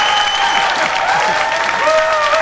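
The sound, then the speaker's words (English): A church audience cheers and applauds for Jesus, with steady clapping mixed with raised voices and a few sustained tones running through the whole stretch. “Well, you ought to do better than that for Jesus. Amen? Let's give him a real cheer.”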